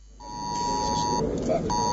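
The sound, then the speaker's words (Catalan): Mobile phone emergency alert tone from a civil protection test in villages of the Girona and central Catalonia districts: a steady, piercing high beep that holds for about a second, breaks off briefly, then resumes over a constant background rumble. “Puntual, a les 10 del matí han començat a sonar els telèfons mòbils i dispositius com rellotges intel·ligents de veïns que viuen a pobles de les comarques gironines i la Catalunya Central.”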